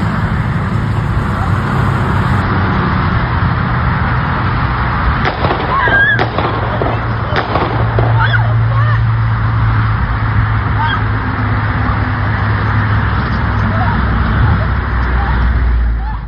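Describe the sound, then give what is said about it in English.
Gunshots during the shooting at Florida State University's Student Union building: a few sharp bangs in quick succession, half-buried in loud, constant rushing noise. “but this is actual video of the shooting as it was taking place. Let's listen.”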